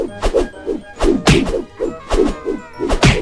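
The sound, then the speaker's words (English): Punches landing in a video game, knocking enemies far away: many loud, quick thwacks in a fairly steady rhythm, each a sharp, weighty impact with no talk over them. “Yeah, I can punch them really far off.”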